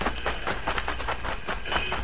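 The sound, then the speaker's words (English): A freight train with cattle stock cars, ready to depart, rumbles steadily under a rhythmic clickety-clack. The repeated clatter stays at a moderate, even level throughout. “Head for the train, Custer. We'll get into a stock car among the cattle. She's ready to leave.”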